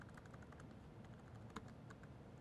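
A command is typed on a computer keyboard as a quiet, rapid run of many light keystrokes clicking at an uneven pace, with one slightly sharper tap partway through.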